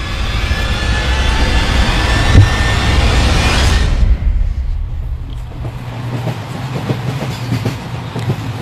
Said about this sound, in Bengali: Train একটা স্টেশনে এসে দাঁড়িয়েছিল।